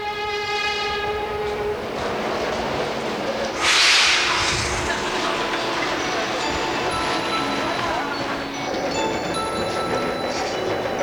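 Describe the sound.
A subway train at an underground station, a steady rolling rumble with one brief, loud horn blast partway through, then the rumble continues.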